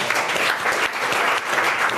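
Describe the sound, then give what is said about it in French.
Audience applause: a steady wash of many hands clapping at an even, fairly loud level throughout, with no voices standing out. “Est-ce que c'est un incroyable défi? Qu'on applaudit, s'il vous plaît.”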